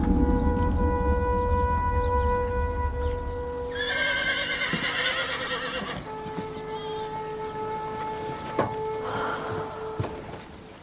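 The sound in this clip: Horses neigh loudly while their hooves clip-clop as they pull a carriage. Several high, wavering whinnies stand out over a steady background, and sharp hoof knocks come through near the end.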